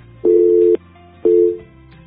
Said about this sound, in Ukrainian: Так, а я приймаю телефонний дзвінок. Вітаю вас.